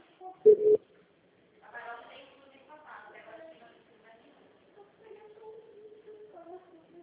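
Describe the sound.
A short, loud electronic telephone tone sounds once for an incoming call, followed by a person talking.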